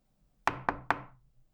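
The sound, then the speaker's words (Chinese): Three sharp knocks on a home's door late at night, quick and evenly spaced, each ringing out briefly before fading into quiet. “谁呀？这么晚了还来敲门啊？”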